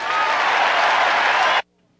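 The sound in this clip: A Republican convention audience applauds a speech on the military, a loud, dense roar of many clapping hands that holds steady for about a second and a half, then cuts off abruptly.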